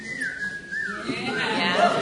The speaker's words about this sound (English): You have to whistle like that. I don't know how to whistle normal.